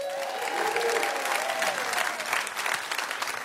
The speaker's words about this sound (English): We have, as usual, a beautiful audience. Give yourselves a big hand.